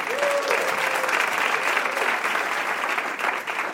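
Audience applause on a game show greeting the next contestant, a physician and medical professor: a brisk, continuous burst of clapping at even loudness from start to finish.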